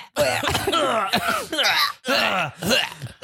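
Gagging and retching from a person pushing a finger down their throat: several loud, strained, voiced heaves in quick succession, with short breaks between them.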